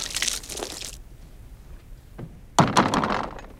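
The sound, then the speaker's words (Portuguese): A truck's cargo box door closes and its latch is turned. A soft rustling scrape at the start gives way to a quiet pause, then a solid thunk followed by short rattling. “Já de camisa, fecha a porta do baú, girando a tranca.”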